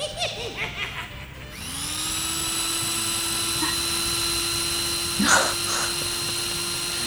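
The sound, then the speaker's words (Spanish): A saw-like cutting machine whines as a scary sound effect, entering after a burst of laughter and holding a steady high pitch, with a short, sharper flare of noise near the end. “Es como una cortadora de algo, ¿no? ¿Como una sierra? Sí, sí, sí. Una sierra para descuartizar.”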